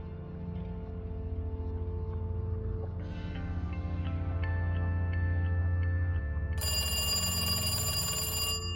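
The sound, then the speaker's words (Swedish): A telephone rings in a dimly lit office: a sustained, bright ringing tone enters late over a steady low drone, with regular faint ticking. “En telefon ringer på ett kontor med dämpad belysning.”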